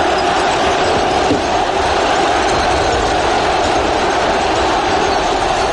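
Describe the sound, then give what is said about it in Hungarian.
Roar of a 70,000-strong stadium crowd at a Hungary–Norway football match, a loud, dense, steady wash of massed voices that holds unbroken throughout, with no single voice standing out. “Hallgassák egy kicsit a 70.000-es kórust.”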